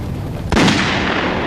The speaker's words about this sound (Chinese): 有人射击